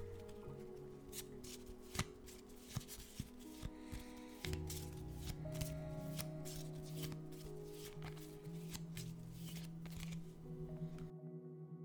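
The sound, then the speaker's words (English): A small deck of Witch's Familiar Runic Oracle cards is shuffled. A few crisp snaps come first, then a continuous papery riffling and sliding, moderately loud and steady, that cuts off abruptly near the end. “We're going to start off with the Witch's Familiar Runic Oracle. That's my little tiny deck of cards.”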